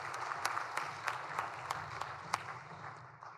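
Modest applause welcoming university student athletes and their coaches as special guests at a formal session. Scattered sharp claps stand out over a soft rustle, and the sound gradually thins toward the end.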